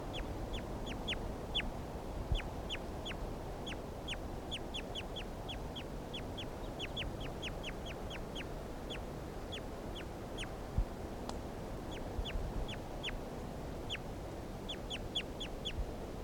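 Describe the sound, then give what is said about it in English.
Bird calls being recorded: many short, high chirps come in irregular bursts throughout, over a steady rushing background noise. “They're recording bird 336 again.”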